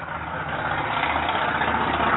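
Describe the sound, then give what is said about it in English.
Traffic drives by outside as a steady, low engine rumble with a broad hiss on top, holding at an even, moderate level without clear individual pass-bys or voices. “we're sitting outside, so we got all the traffic by driving by here.”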